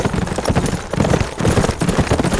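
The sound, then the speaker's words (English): Hooves of several horses clip-clop as a group of riders arrives in an old ghost town, a dense, steady clatter of overlapping hoofbeats that runs loud and unbroken throughout. “John Carlin and Bull Sutton rode into the old ghost town, several of their hands with them.”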